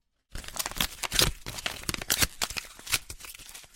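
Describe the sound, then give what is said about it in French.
A photo is torn into pieces, with a quick run of ripping and crinkling paper bursts of fairly low level that repeat for several seconds. “Elle déchire la photo en morceaux.”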